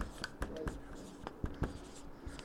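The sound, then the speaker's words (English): Hurried, sloppy handwriting: quick scratchy pen strokes in short irregular bursts, faint and with no voices. “boy, I'm sloppy writing, aren't I? I'm trying to hurry.”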